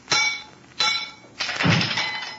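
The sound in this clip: A stick strikes a chunk of gas-weakened, shiny steel casing three times. Three sharp cracking blows land, the last longer, with a crunching, crumbling break.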